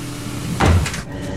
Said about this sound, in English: Leaving, he locks the door from the inside.